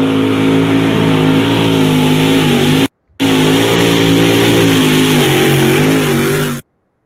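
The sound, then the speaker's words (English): A Massetti tractor engine revving loudly in a steady, harmonic drone with a slightly wavering pitch. It cuts out briefly near the middle, then runs on before stopping abruptly, with no voices. “That's your all's tractor, right? That's a Massetti one, right?”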